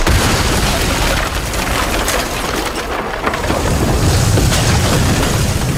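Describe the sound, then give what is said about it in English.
A loud rumbling boom and roar serves as a sound effect for exploding snow globes. The dense, noisy blast continues throughout without a pause. “Shelley Shuhart and her exploding snow globes.”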